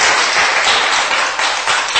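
Congregation clapping hands during a church service, a loud, continuous patter of many claps with no break across the short stretch.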